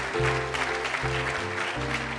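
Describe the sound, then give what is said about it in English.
Staccato clapping from a quiz show studio audience, crisp rapid claps heard over sustained tonal chords that shift a couple of times. “Oh, it's staccato clapping. I love that. I love staccato clapping.”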